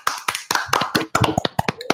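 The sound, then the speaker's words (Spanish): Applause for a shirt-contest winner, a small scattered round of hand claps arriving in irregular, uneven bursts from only a few people. “Así que podemos pasar un aplauso aquí para el hombre. Sí. Aplauso.”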